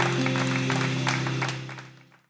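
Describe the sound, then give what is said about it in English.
An audience clapping their hands during a church service, a patter of claps over a sustained low tone, the whole sound fading away toward the end. “Let's clap our hands for God's word.”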